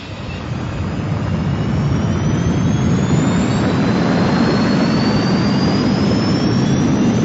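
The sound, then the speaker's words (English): The engine of a personal transport craft roars as it skims over dense forest. A loud, continuous jet-like rush carries a thin whine that climbs slowly in pitch throughout. “A few standard time parts later, and the pilot of the personal transport was skimming the craft over the densely forested land masses of the planet Kuat.”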